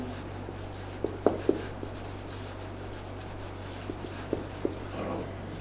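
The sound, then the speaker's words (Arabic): Handwriting during an Arabic grammar lesson, heard as soft scratchy strokes with a few sharper taps of the pen, over a steady low hum. “خل نكتب أصلا مرة واحدة”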